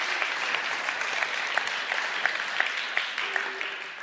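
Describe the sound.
A church audience applauds a speaker, a steady wash of many hands clapping at an even level from start to finish, with no talk over it.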